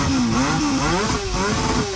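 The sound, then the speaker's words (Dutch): Souped-up racing lawnmower engines revving hard during a race in mud: a loud, buzzing small-engine drone whose pitch wavers up and down continuously throughout. “Inclusief race met opgevoerde grasmaaiers in de modder, horen we bij Hart van Nederland.”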